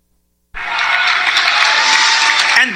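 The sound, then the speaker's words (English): A huge crowd roars and cheers at a Donald Trump rally in Fayetteville, North Carolina. The roar bursts in after a short silence and stays loud and dense for about two seconds before easing slightly. “Fayetteville, North Carolina. Here is Donald Trump closing out that event. Again, a humongous crowd roaring”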